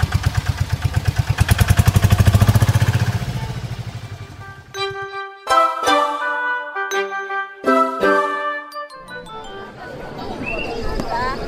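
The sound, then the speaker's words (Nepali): A three-wheeler tempo engine starts and runs with a rapid, steady putter for about four seconds. The putter then fades out as bright chiming tones play in a melody. “ल मैले tempo start गरेँ है त।”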